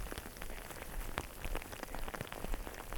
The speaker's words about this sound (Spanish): el granizo se hace un poquito más grande.